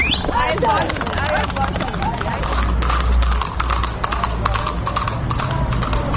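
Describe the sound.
Horse hooves clatter on cobblestone streets in old Tbilisi, a loud, rapid and continuous clip-clop of many strikes, with people talking and crowd babble underneath.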